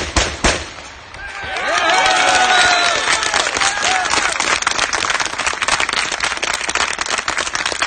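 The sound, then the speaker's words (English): A street crowd applauds and cheers the firing of shots in honour of a dead INLA member. Dense, loud clapping swells after a quiet start and continues steadily, with shouts rising over it early on. “So obviously from the applause, support in the street for the firing of those shots, in honour of Martin Michael Kearney”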